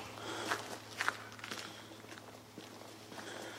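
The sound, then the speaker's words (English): Footsteps on a snowy, icy, slippery road: several faint, irregular crunching steps over a steady low hum. “Just trying to shoot a video for my kids. Icy roads and slippery. Just walking up here just to test it.”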